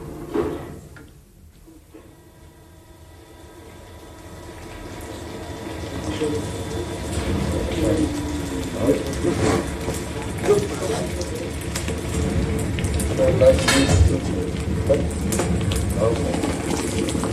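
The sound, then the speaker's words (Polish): Molten metal bubbles and hisses as it is poured through pipes into a waiting bell mould during a bell casting. A low, steady roar builds gradually and stays dense, with scattered crackles and a faint hum running underneath. “Oto słyszymy narodziny dzwonu. Płonąca masa z bulgotem odbija się o rury, zanim wleje się z sykiem w czekające nań gotowe”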